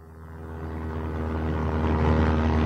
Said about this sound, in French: mais il fait du bruit cet avion, comment ça se fait ? C'est parce que c'est un avion à hélice.